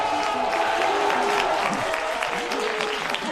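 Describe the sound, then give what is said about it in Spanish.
Quiz show studio audience cheering and applauding after a correct answer: steady, fairly loud clapping, with shouted voices rising over it. “Se viene arriba el público. Animando, sí señor”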